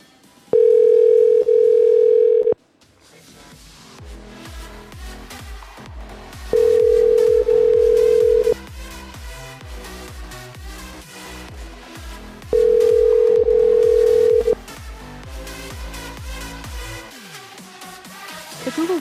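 Ringback tone of an outgoing phone call: three long, steady beeps of about two seconds each, spaced roughly six seconds apart, with rhythmic music playing between them and no talk.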